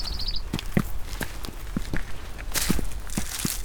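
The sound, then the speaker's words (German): Footsteps climbing a stairway among Remstal vineyards: many dull thuds at an even walking pace, each step a short low knock with a little scuff. “Jetzt geht es hier die Treppe hoch.”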